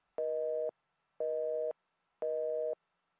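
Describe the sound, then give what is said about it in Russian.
A heart monitor beeps with a patient's heartbeat: three evenly spaced electronic tones, each about half a second long, identical in pitch and loudness, with silence between them. “показывающий сердцебиение пациента. Ровные, постоянные, прерывистые гудки, означающие, что больной не безнадежен и пока еще жив.”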